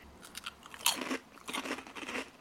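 Quiet crunching and chewing of plain lentil crisps, with many small crisp bites and crackles in an uneven rhythm, a sharper bite near the middle followed by steady munching.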